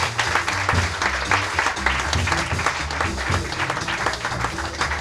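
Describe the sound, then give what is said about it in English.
Audience applause for the drummer at a jazz club in New York: dense, steady clapping that fills the whole stretch at an even level. “we'd like for you to give a warm round of applause to our very wonderful drummer, Mr. Greg Hutchinson”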